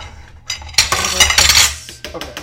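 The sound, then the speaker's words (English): Dirty dishes and cutlery clinking in a sink: a loud, busy clatter of bright metallic chinks and knocks, with a dense burst in the middle and a few scattered clinks trailing off. “ASMR dishes now. ASMR. I have dirty dishes.”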